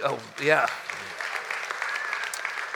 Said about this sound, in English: for all you ladies clapping